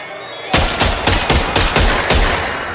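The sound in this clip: Gunfire as a thug is gunned down: a rapid string of loud, sharp shots with a harsh crackling quality, firing in quick succession and keeping up a steady rhythm for over two seconds.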